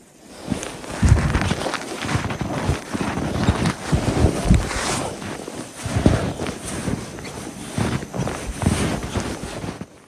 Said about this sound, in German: Ich finde, man hört am Sound schon, dass dieser Schnee anders ist. Ich habe euch mal ein Beispiel mitgebracht, wie das klingt, wenn man durch diese Art von Schnee läuft.